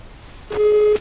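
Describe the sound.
Line tone after a caller to a live call-in program is cut off: a single short, steady mid-pitched beep, fairly loud over a background hiss.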